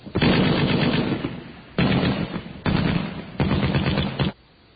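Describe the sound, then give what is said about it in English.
Sci-fi weapon fire from a starship launching photon torpedoes, rendered as four loud, sustained bursts of rapid, machine-gun-like rattling separated by brief gaps, then silence. “Helmsman, fire photon torpedoes.”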